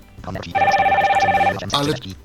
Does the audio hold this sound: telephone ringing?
yes